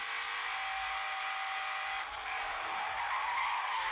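A Lamborghini Diablo's tires skid in a racing video game, a continuous screeching roar with a steady whine running through it and one short dip midway.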